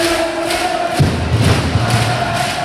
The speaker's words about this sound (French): Ambiance folle à vous coller le frisson et un niveau de décibels rarement atteint, Salle Jaurès.